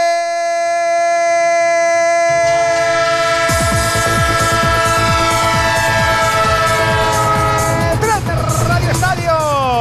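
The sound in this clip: A train sound effect opens with long, steady horn tones. A loud, rhythmic clatter of wheels on rails then joins and keeps running under the horn.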